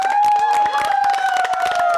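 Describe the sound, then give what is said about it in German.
Applause for a choir leader, with many quick claps in a dense patter alongside sustained melodic tones that hold steady throughout. “Ein Applaus nochmal für Karin.”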